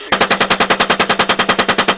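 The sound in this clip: Automatic gunfire in combat: a loud, rapid, evenly spaced stream of many shots fired in one continuous burst, with no talk over it.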